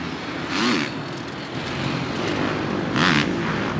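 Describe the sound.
A moped or motorcycle engine runs with a steady low drone, swelling louder twice as it goes by, with no voices over it.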